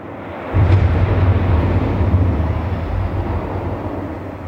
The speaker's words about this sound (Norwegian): Og dette et ekte missil, altså. Det ikke noe vi har funnet på.